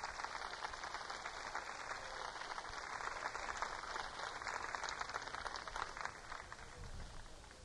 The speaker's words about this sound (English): They are beautiful, aren't they? Let's give them another hand.